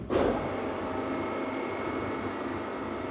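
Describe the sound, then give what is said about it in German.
A motorised concert hall stage moves, giving off a steady, faint mechanical whirr and hum that holds evenly throughout, with no talk. “So, dann Achtung, Bühne fährt.”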